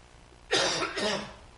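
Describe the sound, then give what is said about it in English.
A harsh, bad cough in two quick bursts, loud against a quiet background, with no talking. “Excuse me, this is bad cough.”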